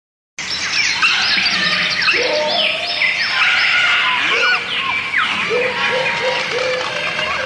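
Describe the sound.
Birds squabbling and crying in the branches of a tree while fighting over a piece of cloth. Many shrill calls, chirps and sweeping squeals overlap in a dense, continuous clamour.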